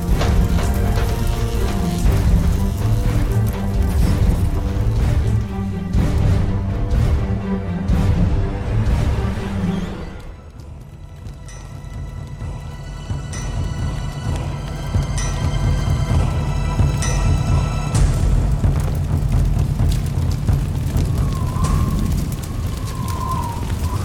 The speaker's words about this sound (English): This whole ship is about to explode.